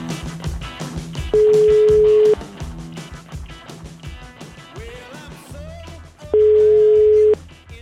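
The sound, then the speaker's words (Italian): An outgoing telephone call rings with two long, steady, mid-pitched tones of about a second each, spaced several seconds apart and standing out loudly over a busy continuous background. “Parte la telefonata, fermi.”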